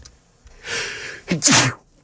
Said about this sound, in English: Sorry for sneezing.